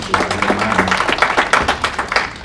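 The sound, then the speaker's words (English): Congregation clapping hands together during a church worship service, many sharp claps in a steady, rhythmic pattern at a fairly loud level. “Let's clap our hands to the Lord.”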